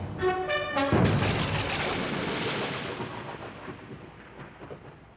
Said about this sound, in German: Sehr passend, der Donnerschlag.